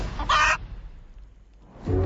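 A hen clucks in two short, loud bursts separated by a quiet gap of more than a second.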